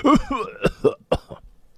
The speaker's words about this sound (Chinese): 倪宽咳嗽了好一阵才继续说